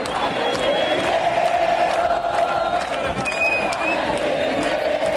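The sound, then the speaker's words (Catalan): Argentina fans celebrate at night at Plaça de les Glòries in Barcelona with a sustained, loud crowd roar of voices and chanting. A high whistle tone cuts through briefly midway. “És el so de la plaça de les Glòries, l'escenari de la gran celebració de l'Argentina amb un España tiene miedo.”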